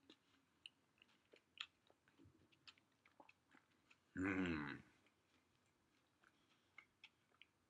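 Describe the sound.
Chewing on a Vietnamese-style sandwich made with baguette-like bread and filled with vegetables, plenty of meat and sauce. Many faint, soft clicking bites sound in an irregular rhythm, with one brief louder burst midway.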